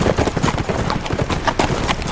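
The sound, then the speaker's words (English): Hooves of several horses strike the ground as they slow to a canter at the edge of woods after crossing grassland. Many rapid, loud, overlapping hoofbeats form a dense, continuous drumming rhythm. “Only when the black woods rose before them did they slow the horses to a canter.”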